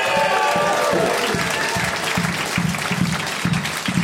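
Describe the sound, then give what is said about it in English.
Angry, hateful clapping from a group, sharp separate claps in a steady, insistent rhythm that keeps going over a background of crowd noise. “Those are anger claps.”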